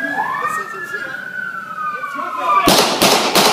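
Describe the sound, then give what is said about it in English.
Three sharp gunshots fired by a police officer crack out in quick succession near the end, following a wailing siren whose tone sweeps and falls steadily underneath. “When Mr. Yatim did not stop in response to Forcillo's demands and did not drop the knife, Constable Forcillo opened fire." And here's audio of those moments.”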